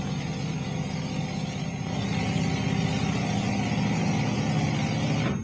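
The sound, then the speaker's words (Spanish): An airplane engine warming up: a steady, even drone with a low rumble and a broad hiss on top, holding a constant level for about five seconds before cutting off sharply, with no voices. “El motor de un avión. ¿Motor de un avión? Está mi piloto calentando el motor.”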